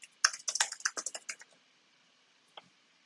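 Fast keystrokes on a computer keyboard as a full command is typed in: a dense burst of clicky taps for about a second and a half, then a pause and one last isolated key press.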